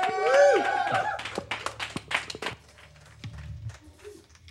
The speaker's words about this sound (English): All right, let's have these last two songs from Stale, everybody. Once more, studio audience, give it up.